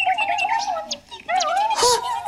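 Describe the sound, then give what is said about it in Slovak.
Pigeon chicks in a nest give high, warbling chirps and cheeps in quick, wavering bursts. The calls are fairly loud and continue with only a brief pause in the middle. “hniezdo plné holúbet”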